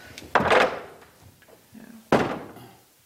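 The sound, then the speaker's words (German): Window shutters are closed with two dull, wooden thuds almost two seconds apart, separated by a faint rattle and rustle. “Wenn ich tatsächlich hier mal finster haben möchte, dann kann ich da diese Läden zumachen.”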